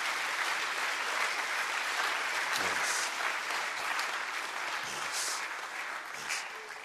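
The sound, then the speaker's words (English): An audience claps steadily and rather weakly for about seven seconds, a continuous patter of hands with no cheering. “You see that even your clapping is weak because you are not sure. Even your clapping is weak.”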